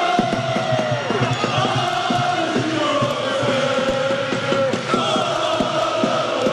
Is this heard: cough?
no

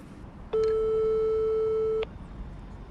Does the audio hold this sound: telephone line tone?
yes

